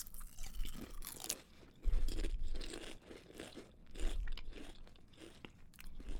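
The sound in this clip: Loud crunching and chewing of kettle-cooked potato chips, with repeated crisp bites and grinding chews in an uneven, steady rhythm.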